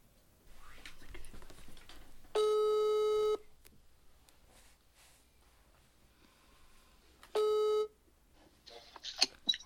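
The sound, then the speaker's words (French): Telephone ringback tone heard while placing a call: two long, buzzing tones about a second each, separated by a pause filled with faint breathing and rustling. “Let's call Marco. Ok, donc téléphone à Marco.”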